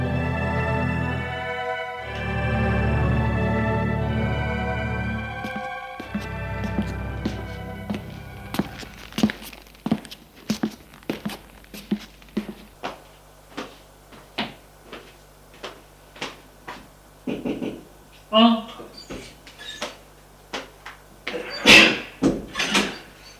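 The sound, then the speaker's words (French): Footsteps on a floor, then knocking on a bedroom door: after music at the start, a long series of steps and dull thuds follows, with a few sharper knocks near the end. “Julien va frapper à la chambre de Gilbert.”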